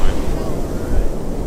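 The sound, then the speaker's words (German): Ocean waves breaking in a small beach cove on an island, a low, continuous surging rumble mixed with wind buffeting the microphone. “Ein paar Meter unter uns entdecke ich eine kleine Bucht. Ja, das ist mein Lieblingsstrand auf der Insel. Und es gibt Wellen.”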